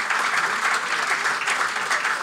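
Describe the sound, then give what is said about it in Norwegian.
Steady applause from many clapping hands, dense and continuous at an even, fairly loud level through the whole clip, with no voices rising above it. “det er en applaus til...”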